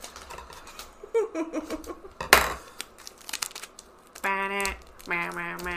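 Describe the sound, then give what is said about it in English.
Adhesive tape being pulled and pressed on to seal the top of a bong: crackly peeling and crinkling, then one loud tearing rip, with a brief voice near the end. “Okay, taping up the bong, the top of the bong. Taping the top back onto the bong.”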